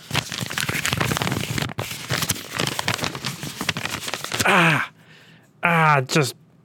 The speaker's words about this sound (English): Yeah, I just want to make sure that the paper works, you know, make sure it doesn't break when I try to ride on it. Okay, here's a piece of paper.